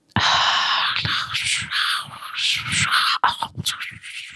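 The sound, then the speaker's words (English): A voice close to the microphone imitates creepy breathing and weird wet mouth sounds from a frozen TV picture: continuous breathy hissing broken by many clicks and smacks, a short pause near the end, then a few more ragged breaths. “like breathing. Weird mouth sounds.”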